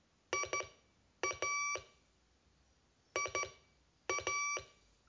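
Morse code beeps sending the letters I and A: four bursts of short and longer electronic tones, bright and buzzy, separated by quiet gaps.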